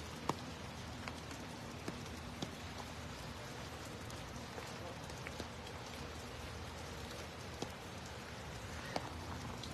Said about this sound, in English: I'm standing out here in the rain on a Saturday